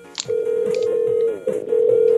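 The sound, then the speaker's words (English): Ringback tone of an outgoing telephone call: a steady mid-pitched electronic tone that holds, dips briefly, then resumes, with a few faint clicks at the start. “We're calling. I think we got patched in early.”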